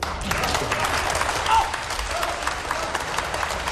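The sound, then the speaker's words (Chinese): Applause from a stage-show audience for the performers, a dense, steady patter of many hands at moderate loudness, with a voice briefly heard over it. “谢谢朋友们的掌声。哎，如果说您这个掌声再热烈一点就更好”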